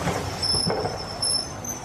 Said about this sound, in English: I am in a large railway terminus, always fertile soil to work in, at York, awaiting the arrival of the midday express from London.